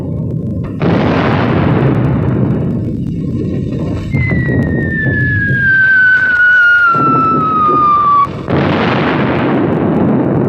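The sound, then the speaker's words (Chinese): Machine-gun fire in a wartime battle at a blockaded tunnel entrance: a loud, sustained rattle of dense bursts with booming blasts, while a high whistle slowly falls in pitch midway through. “机枪。”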